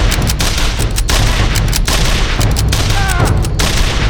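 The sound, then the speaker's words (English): A volley of rifle gunfire, including a lever-action Winchester, erupts in a gunfight with bushwhackers along a creek. Many sharp cracks come in rapid succession over a dense, continuous roar, loud throughout. “In the middle of the volley, Sam had shifted his aim to the other bushwhacker.”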